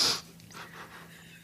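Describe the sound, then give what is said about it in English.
A person sniffs a scent on their skin: one sharp nasal inhale at the start, then quieter breathy sniffs trailing off, with no talking. “This is the sound of me smelling.”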